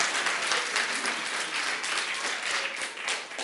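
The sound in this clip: Audience applause welcoming a church pastor at a Sunday service on the first Sunday of Advent: dense, even clapping that stays steady and fairly loud throughout.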